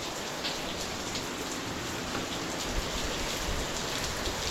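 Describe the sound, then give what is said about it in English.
Heavy rain pours down in a steady, dense hiss with no letup, a loud, even wash of falling water throughout and no voices. “Looks like it's raining pretty hard now.”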